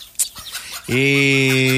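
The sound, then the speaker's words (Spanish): A chicken clucking: a few faint short clucks, then a loud, drawn-out, strongly harmonic call that holds steady to the end. “¿cómo se le ocurre que me voy a robar una gallina de allá?”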